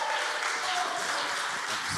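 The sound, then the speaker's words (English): Audience applause welcoming a pastor out to bring the morning message at a church service: dense, steady clapping that holds at an even level from start to finish. “So would you put your hands together and welcome Pastor Joshua Russell as he comes out to bring the message this morning.”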